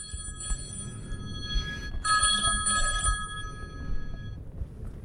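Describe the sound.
A telephone rings in two bursts of bright electronic tones, the first shorter and fainter and the second longer and louder, over a low, rumbling background.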